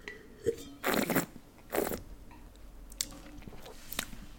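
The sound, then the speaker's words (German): Wine being sipped during a tasting: two loud, airy slurping draws of liquid come in quick succession, followed by fainter mouth smacks and small clicks as the wine is held and tasted. “Ich nehme noch mal einen Schluck gerade.”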